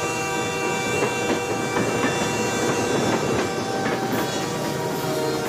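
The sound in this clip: A train runs on the Santa Fe railway main line through a small rural town, a steady loud rumble of wheels on track with faint rhythmic clicking and no voices.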